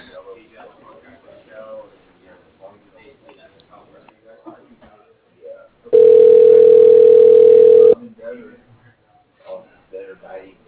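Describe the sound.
A steady, loud telephone tone of about two seconds as a phone call is transferred to voicemail. It sounds alone between stretches of conversation before and after.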